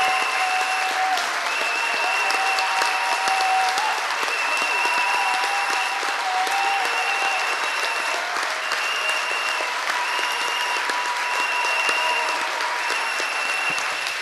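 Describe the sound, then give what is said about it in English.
Continuous hand clapping from a church audience praising the Lord, a dense, steady wash of many hands beating without pause throughout, loud and even. “Acclame le Seigneur. Clap for the Lord.”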